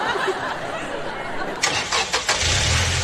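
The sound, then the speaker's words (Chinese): A car pulls away in first gear during a driving lesson: a few brief clicks and knocks over steady background noise, then a low, steady engine hum settles in near the end. “左脚离合，右手挡，一档起步开始，汤，出发吧。”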